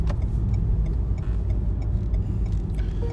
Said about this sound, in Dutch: Ik kan nog wel een stukje zachter rijden.